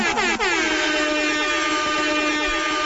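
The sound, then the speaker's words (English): A Jamaican air horn sound effect blares loud and alone, opening with a couple of quick stabs before holding one long, brassy, buzzing tone to the end. “I love those Jamaican air horns.”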